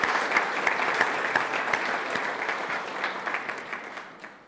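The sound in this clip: Audience applause welcomes a returning guest, a thick burst of steady clapping that gradually thins and fades toward the end.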